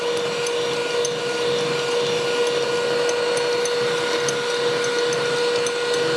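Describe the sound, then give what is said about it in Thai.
A blender whirs steadily while mixing ingredients until no white lumps remain, a constant loud motor drone with a buzzing hum and airy hiss that never changes. “เขาเรียกคาเลดานไม่จับตัวกันเป็นก้อนนะคะก็ถือว่าเข้ากันแล้วแต่ว่าถ้ายังเป็นก้อนขาวๆก็ปั่นต่อไปเรื่อยๆนะคะ”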